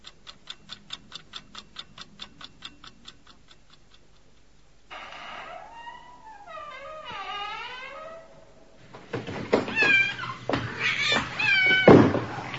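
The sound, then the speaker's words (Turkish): A cat meows in a few wavering, rising-and-falling cries after a steady clock ticking fades out, then gives louder, harsher yowls. “Ay şu kedi. Pıst çekil şuradan.”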